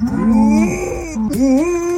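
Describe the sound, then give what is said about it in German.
A female dog mooing like a cow instead of barking, giving drawn-out, low, throaty calls that run almost continuously for two seconds, the later part rising in pitch after a brief dip. “Das ist der Hund. Okay. Der muhende Hund wird millionenfach geklickt.”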